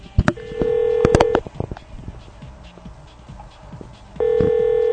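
Ringback tone sounds on a phone line while calling a company: two buzzing rings separated by a long pause of quiet line noise, with a few short blips over the first ring.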